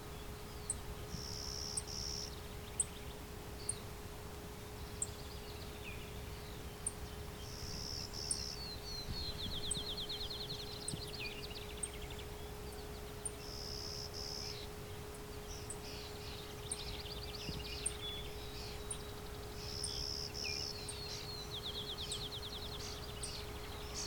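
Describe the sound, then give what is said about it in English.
European starlings calling: many short, high chirps and whistles come in scattered bursts. They are faint against a steady low hum and background hiss. “Some European starlings here too.”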